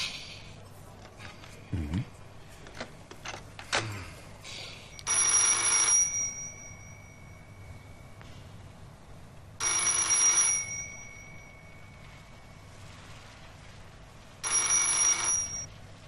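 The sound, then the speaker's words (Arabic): A telephone rings in a Tehran hotel, giving three bursts of bright bell ringing at evenly spaced intervals, after a few faint clicks and handling sounds at the start. “لو سمحت أنا سأرد على هذا الاتصال.”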